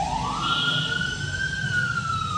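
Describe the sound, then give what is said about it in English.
An emergency vehicle siren wails in one long tone that climbs slowly in pitch and then levels off. It sounds loud and steady over a low background rumble. “Now they have this siren.”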